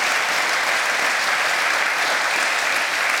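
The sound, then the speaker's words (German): A studio audience applauds during a football talk show, a dense, even, steady clapping that stays loud throughout with no voices over it. “Applaus”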